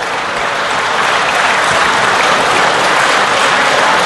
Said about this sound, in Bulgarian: редовното заседание с нестихващи аплодисменти.